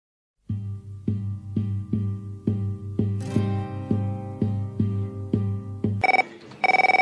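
A telephone rings in many short, evenly spaced electronic pulses that repeat steadily and loudly with no one answering. At the end a brighter, higher electronic tone sounds twice.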